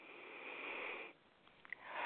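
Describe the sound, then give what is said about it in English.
A deep breath drawn in through the nose: a long, soft, airy inhale lasting about a second, then a brief quiet pause with faint clicks, and a second breath swelling at the end. “Take a deep breath, please.”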